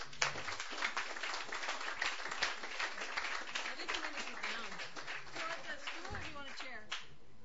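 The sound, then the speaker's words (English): Audience applause welcomes a performer back to the stage at a Sunday night open mic: dense, steady clapping throughout, with a voice briefly rising over it near the end. “Please put your hands together for my soul sister, Miss Laurel McClure.”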